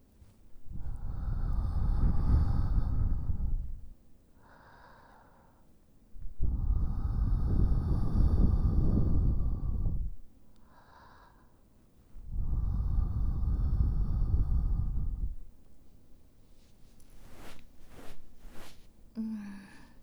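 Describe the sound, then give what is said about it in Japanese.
Breath gently blown into an ear to clear away fine earwax during ear cleaning: three long, soft, airy blows of several seconds each, separated by quieter pauses. A few faint clicks follow near the end. “これからお耳にふーっと息を吹きかけて細かい耳垢を飛ばしていきますね。”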